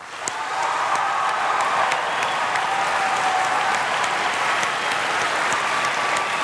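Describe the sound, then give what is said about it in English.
Audience applause at a vice-presidential debate as Governor Palin and Senator Biden are welcomed, a dense, steady clapping that swells quickly in the first moment and then holds loud and even throughout. “The audience here in the hall has promised to remain very polite. No cheers, applause, no untoward outbursts. Except right at this minute now as we welcome Governor Palin and Senator Biden.”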